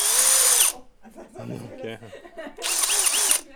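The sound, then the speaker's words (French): Power drill with a 25 cm stainless steel bit whines loudly and high-pitched as it takes a sample. It runs in two bursts, and a person speaks in the pause between them. “c'est monté sur un outil qui est assez courant, qui est une perceuse.”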